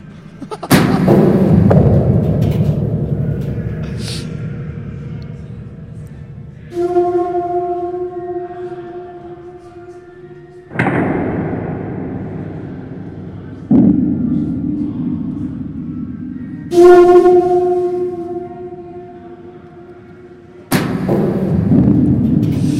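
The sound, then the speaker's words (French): An urban-noise sound piece made for the company Osmosis: six heavy, booming impacts at uneven intervals, each trailing off into a long, decaying rumble, some carrying a sustained tonal hum. “Ch'tou parlait d'espace urbain, j'ai envie de dire, bruit urbain, non, sur ce qu'on vient d'écouter. Alors là, c'est un travail pour la compagnie Osmosis”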